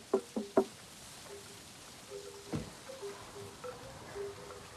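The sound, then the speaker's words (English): Three quick, light knocks on a window of a garden suite, sharp and close together, followed by quiet with a few faint, soft tones. “She knocks on a window.”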